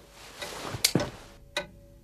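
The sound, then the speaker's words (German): A large grandfather clock ticks loudly in a living room, with a few sharp, crisp ticks and knocks standing out from a quiet background. “Tick, tack, tick, tack. Wer um alles in der Welt ist nur auf die Idee gekommen, dass große, laut tickende Standuhren ein Wohnzimmer gemütlich machen?”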